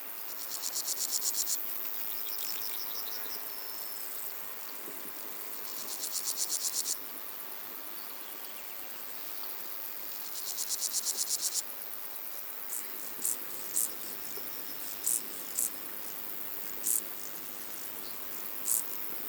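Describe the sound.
Grasshoppers stridulate in hot July grass, a faint, high, buzzy chirring. It comes first in a few sustained bursts lasting several seconds each, then shifts to short, sharp chirps repeating at irregular intervals.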